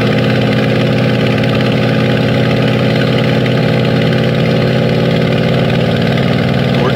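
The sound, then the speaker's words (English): A Spitfire aircraft engine running on the ground makes a loud, steady, continuous drone with a rough, throbbing idle texture. It stays unchanged throughout, with no voices over it. “That's the Spitfire.”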